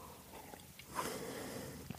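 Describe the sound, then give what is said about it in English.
Heavy breathing close into a microphone, with a rushing breath and soft sniffing sounds, faint and steady, swelling into a louder breath near the middle. “I always find I'm, I like breathe heavily into the mic, and I'm sorry. I don't know how to not. And it's like, it's far enough away from my face, but I, you know, gotta breathe.”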